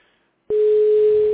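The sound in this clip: Telephone busy signal after a dropped line: brief silence, then a loud, steady mid-pitched tone begins abruptly and continues unbroken to the end.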